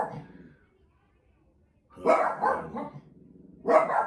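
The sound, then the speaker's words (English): Dogs barking at a noise outside: two short bursts of loud barking with yips, separated by a quiet pause, alongside speech. “That my dogs aren't just barking for no reason. There's any noise outside, they start barking.”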